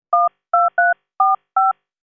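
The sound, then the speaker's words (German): Five telephone keypad tones entering a PIN for a telephone banking service. Each is a short, steady two-tone beep, loud and clean, with brief silent gaps between them. “Jetzt bitte noch die Geheimzahl fürs Telefonbanking. Sie können sie sagen oder eintippen.”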